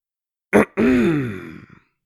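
A girl clears her throat: a short, rough burst followed by a longer voiced, grunt-like rasp that slowly fades and trails off.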